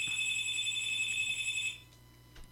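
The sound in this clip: A telephone rings with an incoming call: a steady, high electronic ringing tone that sounds for under two seconds, then cuts off and leaves a faint low hum.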